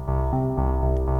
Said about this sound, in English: what you're hearing now is the filter cutoff being controlled by the solar panel that's in the shadow of my knee.